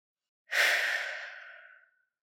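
A single deep breath is let out during a relaxation exercise, a soft, airy whoosh that swells quickly and then fades out over about a second and a half, with nothing else around it.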